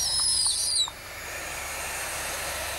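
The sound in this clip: Barn owl hissing in one harsh, breathy burst that lasts just under a second, followed by a steady, softer background noise.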